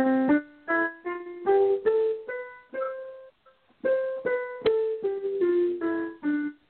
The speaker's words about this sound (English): But the diatonic scale, the major scale, sounds like this. You know, it's the classic Do, re, mi, fa, sol, la, ti, do